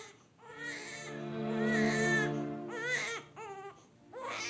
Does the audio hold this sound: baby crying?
yes